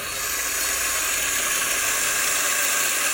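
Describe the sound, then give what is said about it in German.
A coffee grinder grinds 18.7 grams of coffee for espresso, giving a steady, hissing, high whir that runs without pause. “18,7 Gramm werden gemahlen.”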